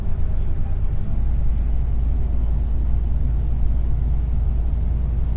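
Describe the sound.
Steady, heavy low engine rumble from inside a moving bus on the way to Slussen, continuous and fairly loud with a faint high whine above it and no talk.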